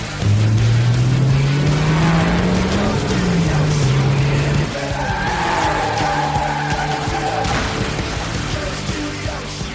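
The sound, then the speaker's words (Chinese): Car engine roaring as it accelerates in an action film car scene, a loud low tone climbing steadily in pitch, then dropping, followed by a sustained high tire squeal. “踩上油门，飞奔吧！”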